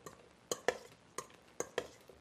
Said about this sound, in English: so some salt and pepper and celery seed onto our potatoes, and then we're just going to stir them around.